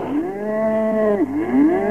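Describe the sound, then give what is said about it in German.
A cow moos while being milked by hand into a bucket: one long, low, drawn-out call with a rich buzzing tone, dipping in pitch near the middle before rising again. “Jetzt werde ich dir mal zeigen, wie man Kühe melkt.”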